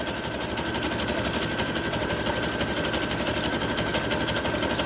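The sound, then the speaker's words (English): A sewing machine stitches fabric with a steady, continuous mechanical buzz and a fast, even rhythm, staying loud and unbroken with no talking. “I'm going to sew around it. Here we go. Ready? 1, 2, 3. Kalamazoo, here we go. And, oh, okay, let me sew that on.”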